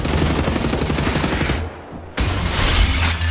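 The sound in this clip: Rapid gunfire from a giant robot in the video game Wolfenstein: The New Order, a dense, harsh burst that cuts out for a moment and then resumes loudly.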